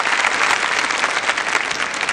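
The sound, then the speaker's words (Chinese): Audience applause at a talk as a guest researcher is welcomed: dense, loud, steady clapping that holds throughout without a break, with no voices rising above it. “掌声送给黄老师”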